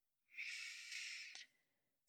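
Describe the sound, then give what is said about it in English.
A single slow, deliberate breath: a steady, airy rush of air lasting just over a second, heard alone with no talk. “Take a slow breath.”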